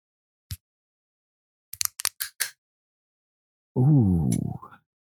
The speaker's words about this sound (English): Ooh, hear that crisp screw top coming off.